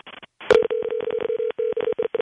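A telephone rings with a buzzing electronic tone that starts with a sharp click and then pulses in rapid, uneven bursts.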